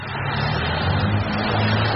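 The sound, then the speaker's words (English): Heavy road traffic along an avenue in Detroit in soft rain: a steady, unbroken rumble of car and truck engines with a low drone and a continuous airy hiss over it, loud and even throughout. “A soft rain is falling on heavy traffic along Jefferson Avenue”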